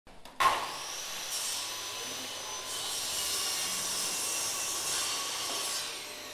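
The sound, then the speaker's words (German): Sawing in the workshop of a film school in Cologne where first-year set design students build scenery: a single knock, then a steady rasping, buzzing noise that runs on without a break. “Es wird gesägt, gehämmert und fleißig gestrichen. In der Werkstatt der Internationalen Filmschule Köln sind die Erstsemester des Studiengangs Szenenbild bereits seit einigen Wochen am Gange.”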